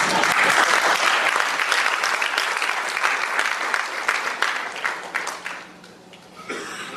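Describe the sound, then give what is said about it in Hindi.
Audience clapping during a speech, loud, dense applause that thins into scattered separate claps and fades out near the end before a short renewed burst. “Chicago में ताली बजी थी, आप लोग ना बजाएं तो भी चलेगा।”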